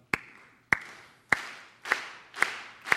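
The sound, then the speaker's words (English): Rhythmic clapping from an audience: six sharp, evenly spaced claps at a steady moderate tempo, each with a short ringing tail. “can we get some rhythmic clapping, like,”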